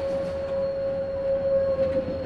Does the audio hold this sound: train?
yes

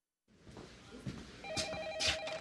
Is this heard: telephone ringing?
yes

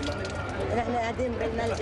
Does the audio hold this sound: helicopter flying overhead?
no

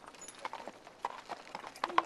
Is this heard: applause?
no

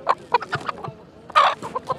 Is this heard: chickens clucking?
yes

